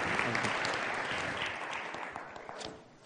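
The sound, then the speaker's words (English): Audience applause welcomes a speaker to the stage at a morning gathering: dense, steady clapping from many hands that tapers off toward the end. “would you please put your hands together, join me in welcoming Will Davis”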